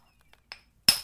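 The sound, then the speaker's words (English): Flint being knapped: a faint tick, then two sharp, glassy clinks of stone striking flint, the second louder and ringing a little longer. “It is late July 2023, and the sound you can hear is Flint being napped.”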